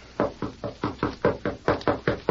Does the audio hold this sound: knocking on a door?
yes

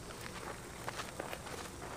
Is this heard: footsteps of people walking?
yes

